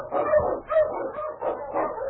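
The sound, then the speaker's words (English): An Eskimo lead sled dog barks and yelps in a continuous run of rough, loud, mid-pitched calls that rise and fall over about two seconds. “The Wonder Dog King, swiftest and strongest of Eskimo lead dogs, blazes a trail through storm and snow for Sergeant Preston”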